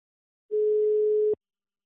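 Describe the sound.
A single ringback tone sounds on a telephone line while a call is being placed: one steady, mid-pitched beep lasting under a second and ending in a faint click, with silence before and after.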